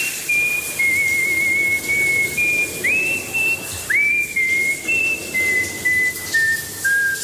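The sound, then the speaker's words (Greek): A man whistles a wavering, high melody in the shower, holding long notes with a couple of quick upward slides. A steady hiss runs beneath the whistling throughout. “Όταν κάνω ντους, σφυρίζω και κάνω πολύ φασαρία, δυστυχώς.”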